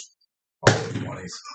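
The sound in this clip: A die rolled onto a tabletop during a role-playing game strikes the microphone with one loud thump after a moment of silence, then a brief clattering tail as it settles.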